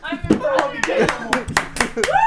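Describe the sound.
Hand clapping among a lively group, a string of sharp claps at an uneven pace mixed with loud voices talking and calling out.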